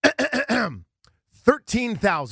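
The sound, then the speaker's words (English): A man clears his throat during a car dealership advertisement, with a few gravelly, voiced bursts, a brief pause, then more rough, throaty rasping. “I have to clear my throat for this”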